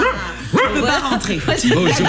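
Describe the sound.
A dog in a studio yips and whimpers, making many short, high-pitched, wavering calls that run under ongoing talk.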